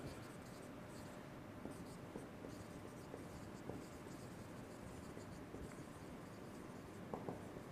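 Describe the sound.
Faint scratching of writing on a board during a lecture, a soft steady hiss broken by a few small clicks and taps of the strokes, with no clear speech.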